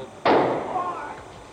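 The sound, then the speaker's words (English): A single gunshot rings out in a police headquarters basement: one sharp, sudden crack that then dies away into a loud, rumbling wash of noise. “He's been shot. He's been shot. Lee Oswald has been shot. There's the man with a gun.”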